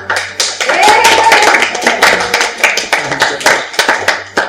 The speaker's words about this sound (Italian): Poteva essere il loro ultimo applauso, quindi io l'ho lasciato fare, ovviamente.